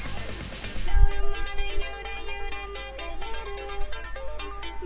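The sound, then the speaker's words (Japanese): A phone ringtone for an incoming call from Egypt, a repeating melody of bright electronic notes playing steadily throughout. “エジプトからお電話だよ”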